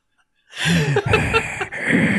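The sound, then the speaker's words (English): A voice imitating heavy, rasping breathing: after a short silence, a loud, drawn-out breath with a gasping, hissing texture that continues to the end. “Heavy German breathing is heard over the loudspeakers. Are you going to do the heavy”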